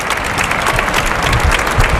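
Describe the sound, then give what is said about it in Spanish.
Audience applause at a bullfight, an ovation for a bullfighter, sounds as dense, continuous clapping from a large crowd at an even loudness throughout, with no talk. “Sale a saludar una ovación David de Miranda a la segunda raya de picar, montera en mano.”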